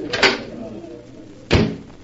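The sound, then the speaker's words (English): A door opening onto a terrace gives two short thumping knocks about a second and a quarter apart, with a low murmur between them. “Here, this door opens onto it.”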